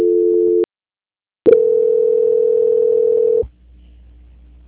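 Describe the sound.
A steady telephone tone plays while a phone call is being transferred. A half-second beep is followed by a pause, then a longer tone of about two seconds that cuts off into a low hum.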